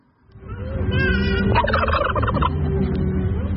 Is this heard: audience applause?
no